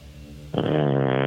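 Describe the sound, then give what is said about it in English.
A fart sound: a low, droning buzz suddenly turns into a louder, raspy, brassy blare that holds steady for under a second. “That sounded like you farted.”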